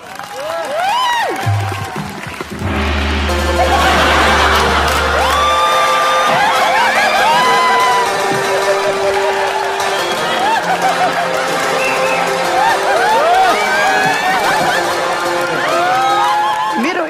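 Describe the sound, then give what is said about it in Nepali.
Loud, sustained applause and cheering with whoops and shouts from a stage-show audience welcoming a guest billed as a Chinese superstar. It swells quickly after a brief low tone at the start and stays dense and steady throughout. “आज मेरो so रमाइलो छिमा आउँदै हुनुहुन्छ Chinese superstar चाइनाको hero कृपया जोरदार तालले स्वागत गरौँ”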